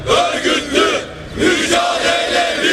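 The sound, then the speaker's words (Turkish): Protesting municipal workers at a sit-in outside the town hall chant slogans in unison, loud rhythmic bursts of many voices rising and falling in a steady pattern. “Belediye binası önünde toplanan kalabalık oturma eylemi yaptı. Sloganlarla duruma tepki gösterdi.”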